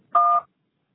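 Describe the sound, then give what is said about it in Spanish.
A voicemail tone before a message is recorded: a single short, clean, two-pitched electronic telephone beep lasting about a third of a second, followed by silence. “No pude contestar su llamada ahora. Después del tono, grabe su mensaje.”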